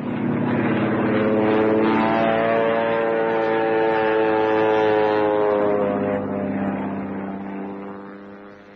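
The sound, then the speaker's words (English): A propeller airplane in flight drones steadily with a loud, low harmonic hum, holding level for most of the stretch before gradually fading near the end. “You force me down. Me just about crash. Then you block me off with that plane.”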